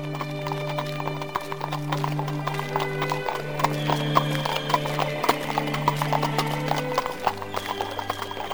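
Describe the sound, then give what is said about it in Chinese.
A horse's hooves clop on an asphalt road as it pulls a carriage, a steady rhythmic series of sharp hoofbeats running throughout, with a sustained low tonal hum beneath. “卡斯提竖起鬃毛开始奔跑，扬起漂亮的腿，马蹄声在柏油路上听得很清楚”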